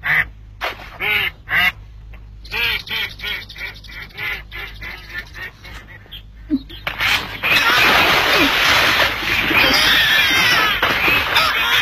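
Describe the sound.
Ducks quack many times in loud, irregular bursts that start out separate and then run together into a dense, noisy stretch.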